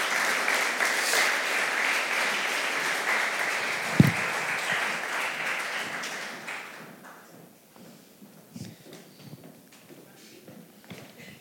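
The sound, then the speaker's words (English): Audience applause welcomes guests to the stage: sustained, dense clapping with one sharp thump partway through, then it dies away to faint scattered noises. “So can you guys put your hands together as we welcome Pam and her friend Annie as they come to the stage?”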